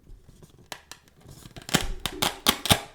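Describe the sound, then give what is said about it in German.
A Velcro fastener on a small box is pulled open in a few quick, rasping rips after some faint rustling. The tearing bursts get louder and closer together toward the end. “Oh, geiles Geräusch, oder? Das war ein Klettverschluss. Richtig erkannt.”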